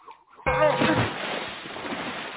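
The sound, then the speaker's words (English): Water splashes from a tipped oak bucket pouring over a queen's head and knocking her under the waves: a sudden loud splash, then a long, steady wash of rushing water that slowly fades. “She pulled the short levers, Charming so clever, quickly moved away from the oak bucket that splayed over the queen's head, knocking her under the waves.”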